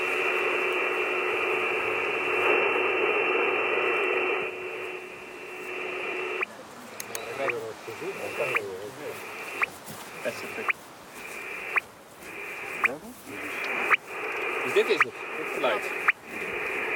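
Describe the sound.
Radio telemetry receiver picking up an animal's collar transmitter, with an antenna turned to find direction: a steady band of static hiss gives way to a regular series of short beeps about once a second.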